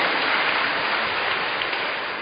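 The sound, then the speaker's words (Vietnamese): Audience applause thanks someone for an answer: a steady, even patter of many hands that sounds almost like rain, moderately loud and unbroken for two seconds. “Vâng, chúng ta cảm ơn cái một câu trả lời, một tràng pháo tay.”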